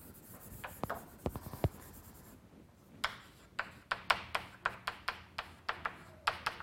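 Pen or chalk drawing on a board during a physics lecture: faint scratchy strokes and many quick, rhythmic taps that grow more regular in the second half, with no talking.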